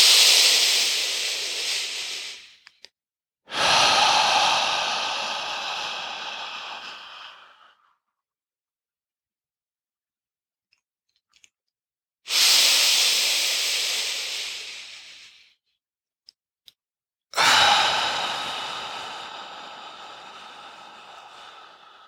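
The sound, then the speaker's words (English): Deep breathing in a guided breathing practice, inhaling through the nose and exhaling. Four long, airy breaths come in two pairs, each swelling and then tapering off, with a quiet pause between the pairs and no talk. “go ahead and let's finish up our last three together, exhaling. Inhaling in your nose, pulling up from the earth.”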